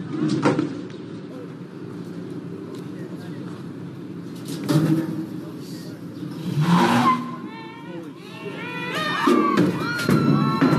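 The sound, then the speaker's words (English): A crowd at a university pulls a statue off its base: loud, continuous crowd noise with a heavy thump near the middle, then a swell of noise followed by shouts and whistles. “All right, that is the sound of Egerton Ryerson falling off his base.”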